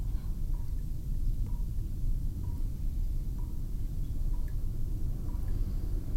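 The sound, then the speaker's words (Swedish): Water dripping in a dark corridor over soggy, wet carpet: faint, light drips falling roughly once a second over a steady low rumble, with no voices. “Det droppar.”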